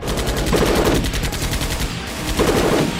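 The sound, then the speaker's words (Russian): Automatic gunfire from several barrels at once tears into a lift cabin and echoes off its walls, a dense, loud, continuous rattle of rapid shots lasting the whole time without a pause. “Огонь из всех стволов отразился от стенок лифта, создав жуткое эхо.”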